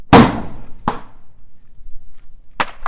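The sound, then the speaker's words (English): Gunfire from shotguns, pistols and rifles at an outdoor range among dirt hills: four sharp, booming shots with short decays, two spaced apart early and two close together near the end. “Bullets charge out of shotguns, pistols, and rifles as gunners take aim at targets staggered among the dirt hills north of Spanish Springs.”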